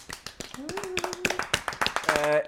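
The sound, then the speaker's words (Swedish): A short burst of hand clapping from a few people, many quick overlapping claps with a voice sounding over it. “Applåd.”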